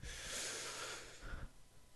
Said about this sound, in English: Now breathe in.